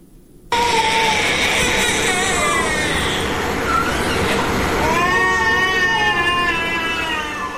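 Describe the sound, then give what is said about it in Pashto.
Crying of malnourished children at the central hospital in Helmand: after a brief quiet start, several high, wavering wails overlap continuously over a dense, noisy background. “دا جړاوی د هلمندي ماشومانو دي چې لوږه او بي وسلې تر روښتونه رسولي.”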